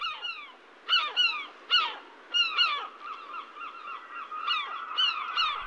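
Swans honk as they fly away: many nasal, slightly downward-bending calls repeat in irregular bursts, some overlapping, over a faint steady tone.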